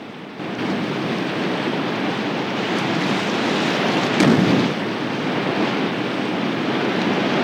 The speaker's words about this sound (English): then resumes paddling as they enter some rapids.